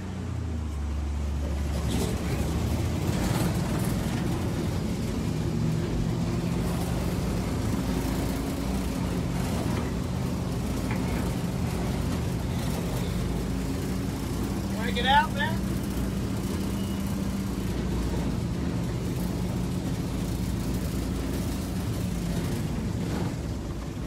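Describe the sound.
Car engine pulling in second gear, a continuous low droning hum whose tone shifts slightly over time, with wind noise running underneath throughout.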